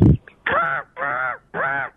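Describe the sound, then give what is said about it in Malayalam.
A voice imitates a crow's caw three times, each a harsh, nasal, evenly spaced call of similar length, loud and with no other talk. “അടുത്തത് കാക്ക.”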